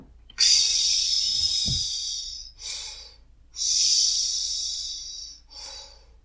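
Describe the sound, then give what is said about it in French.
Deep breaths exhaled during a breathing exercise: two long, loud, airy rushes, each followed by a shorter, softer breath, with a brief low thump during the first, no voices. “Et puis on peut expirer.”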